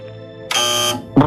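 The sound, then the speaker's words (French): A wrong-answer buzzer from a radio quiz gives one harsh, flat buzz of about half a second. A voice starts just after it ends. “ce son... C'est le son de la mauvaise réponse.”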